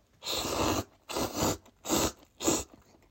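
Crunchy bites and chewing of garlic-flavoured food: four fairly faint, noisy bursts with brief pauses between them, no talk.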